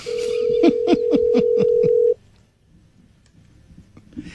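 Telephone tone on a call that goes unanswered: a steady, loud low-pitched tone with a run of rapid pulsing beats for about two seconds, then cutting off to near silence.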